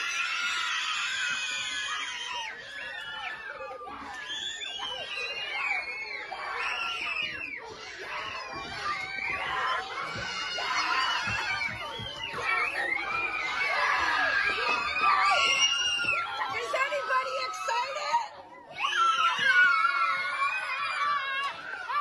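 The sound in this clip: Many children scream, shout and cheer together with joy at news that masks are no longer required, making a loud, continuous din of high, overlapping excited voices that dips briefly near the end.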